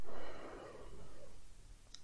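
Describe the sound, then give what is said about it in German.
A slow, deep breath drawn in through the belly during a guided breathing exercise: a soft, airy rush of air that lasts about two seconds, alone without any talk. “Atme einmal tief ein in den Bauch”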